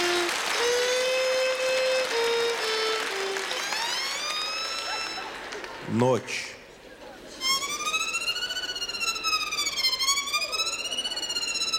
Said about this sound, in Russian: Где-то проезжает скорая помощь.